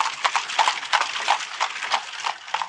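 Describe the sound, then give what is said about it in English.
Hooves of a horse being ridden clip-clop in a brisk, steady rhythm, many crisp hoof strikes following one another evenly, with no voices. “on the Sabbath, I saddled up Hero and rode to Nahum's farm.”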